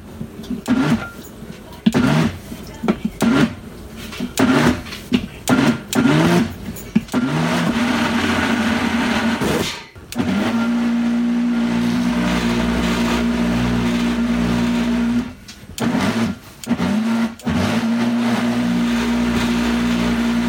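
A blender pulses pumpkin into puree: many short, choppy motor bursts at first, then longer steady whirring runs broken by a few brief stops.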